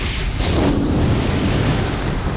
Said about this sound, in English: Shango unleashed a burst of fire, lighting the pyre.